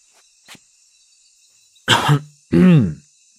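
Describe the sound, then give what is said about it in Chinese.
A man coughs twice, two short rough bursts close together after a quiet stretch, with no talk. “秦放咳嗽了两声”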